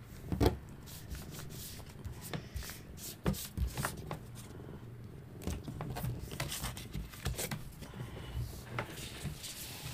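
Playing cards being dealt during a card game: a run of soft slaps, flicks and rubbing sounds in an irregular pattern, fairly faint throughout.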